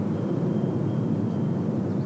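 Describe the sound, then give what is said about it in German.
Airplanes flying across the sky over the granite mountains of the Sierra de Guadarrama near Madrid produce a faint, steady, low rumbling drone. It holds even throughout, with no talk. “Flugzeuge kreuzen den blauen Himmel über den Granitfelsen der Sierra de Guadarrama, ein Gebirge in der Nähe von Madrid.”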